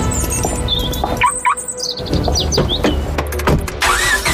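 A car engine running in an engine-cleaner advertisement, a low, steady rumble mixed with bird chirps and bright whistling effect sounds.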